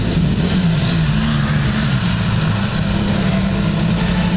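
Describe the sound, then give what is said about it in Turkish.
Engines of a vehicle convoy driving during a security attack drill rumble steadily, with a low, loud drone and a slight revving edge that holds throughout. No voices. “Araç konvoyu saldırı altında. Ekipler de o saldırıya anında müdahale ediyor.”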